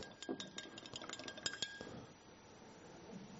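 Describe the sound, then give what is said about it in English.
Stirring a mixture in a container, with many quick, light clinks and scrapes packed into the first two seconds, then thinning out into a faint, quiet tail. “So why don't we stir it up and see what happens?”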